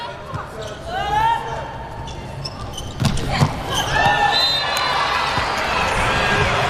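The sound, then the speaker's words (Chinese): A ball served in a match with a crowd in the hall: one sharp impact stands out midway through steady crowd noise, with shouts and voices throughout. “上来的发球也是在找人找点，但是在找的过程当中，速度和力量还是差了一点。”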